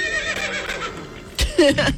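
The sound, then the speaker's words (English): A horse whinnies in a short, loud, shrill neigh with wavering tones, bursting out in the last half second after a quieter stretch. “A nay-nay? You know, like a horse?”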